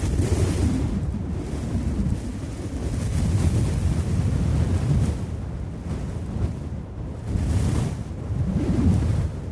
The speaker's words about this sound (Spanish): Al punto se levantó un viento huracanado que arrastraba piedras y rocas como si estuvieran hechas de paja.